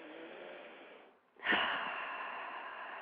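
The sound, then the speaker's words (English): A deep breath taken at the start of a guided prayer: a soft airy breath, a brief pause, then a stronger, sustained rush of air that continues to the end. “So I invite you to close your eyes and take a deep breath with me.”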